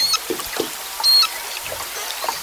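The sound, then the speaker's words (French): Beluga whales calling at the start of the Nushagak River in Alaska: high thin whistles, squeaks and chirps, some brief and one held longer, over a constant watery hiss. “Au début de la rivière Nooshagak. Il s'agit de baleine beluga qu'on entend.”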